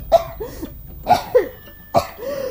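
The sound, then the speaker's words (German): A human voice imitates a small coal stove fire coughing and sputtering, giving a few hoarse, spaced coughs with no other sound. “Was hustest du, mein kleines Feuer? Es ist so stickig hier.”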